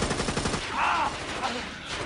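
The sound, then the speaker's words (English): Gunfire in a tense indoor shootout: a rapid, rattling string of shots like a machine gun, fairly faint, followed by more scattered bursts. “When I say now, start shooting!”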